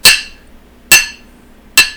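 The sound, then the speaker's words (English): A voice imitates large 1.75-liter vodka bottles clinking together in an accelerating car. Three sharp, bright clinks come at a steady, even pace, with no talk. “And every time we would slow down, you'd hear them clink a little bit, but it was when you would accelerate that you would just hear like a—”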